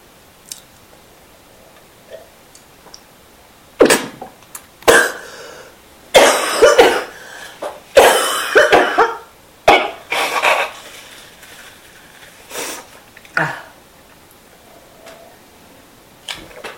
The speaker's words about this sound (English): Sorry, I have a bit of a cough.